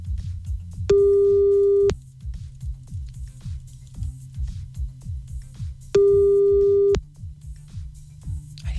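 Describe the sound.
Calling tone while a telephone calls someone back: two long, steady, mid-pitched beeps separated by a pause of several seconds, over a low, rumbling background.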